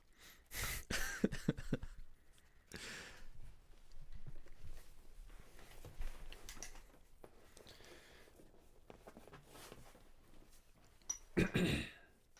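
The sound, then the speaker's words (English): Throat clearing into a microphone: a few rough, gravelly bursts early on, then people talking casually, with another loud throaty burst near the end. “You cleared your throat. That's a punishable offense.”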